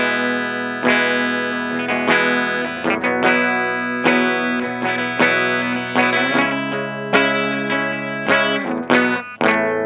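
A Martin D-28E guitar played through its bridge pickup with the tone turned down, giving a trebly sound: many strummed chords ringing out in a steady rhythm, bright and slightly distorted, with no talking.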